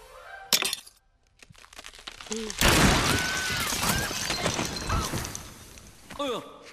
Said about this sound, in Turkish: Buz kırıldı.